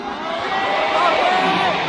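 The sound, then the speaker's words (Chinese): Audience applause and cheering at a live music performance, a dense, steady roar of crowd noise with a wavering raised voice cutting through the middle. “掌声鼓励一下，要不要继续？”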